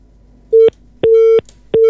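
A telephone busy tone after a call disconnects: three loud, steady mid-pitched beeps of uneven length, the middle one longest, separated by short silent gaps, with no talking.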